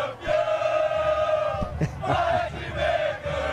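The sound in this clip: Grêmio football supporters chanting together in a crowd, the massed voices sustained and tonal, rising and falling in steady waves.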